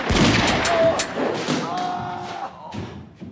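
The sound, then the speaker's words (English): Gunshots ring out in a shootout: a few sharp, loud reports and heavy thuds in quick succession at the start, then fainter scattered impacts trailing off. “A shootout ensues in which they both take hits.”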